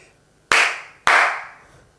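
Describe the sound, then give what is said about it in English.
Two loud, sharp hand claps about half a second apart, each a crisp crack followed by a long, smoothly fading tail, with near silence before the first. “Just clap.”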